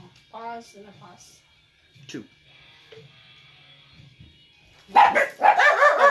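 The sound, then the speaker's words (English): A dog barks several times in sharp, high bursts, some early and louder ones near the end, mixed with people talking. “Sorry about the barking.”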